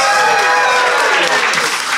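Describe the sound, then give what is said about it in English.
A delighted studio audience applauds at a word quiz game. The clapping is thick and continuous, staying loud and even through the whole stretch. “That is the sound of an audience delighted.”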